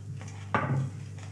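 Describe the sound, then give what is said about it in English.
Dice rolling on a table during a tabletop role-playing game: one sharp clack and then a brief rattling clatter, fairly faint over a steady low hum. “You gotta fix the way you roll your dice”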